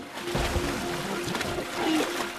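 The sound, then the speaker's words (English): Walrus mother and pup sliding off an iceberg into the water, with soft splashing and sloshing that stays at a moderate level throughout. “A mother and her pup slide into the water.”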